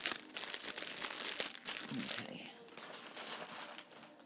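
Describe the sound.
Crumpling of an empty packet: fairly faint, dense crinkling and rustling that runs on unevenly throughout.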